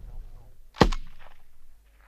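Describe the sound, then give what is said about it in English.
A single loud, sharp crack of a live round fired on a shooting range at a target at range 200, with a short decaying tail over a faint low rumble. “That was excellent. That was a much better shot altogether.”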